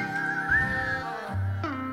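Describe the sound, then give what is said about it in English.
A person whistles a few sustained, fairly bright notes, moderately loud, with the pitch holding mostly level before the sound shifts near the end. “Everybody whistle now. Get out! I can't whistle like that.”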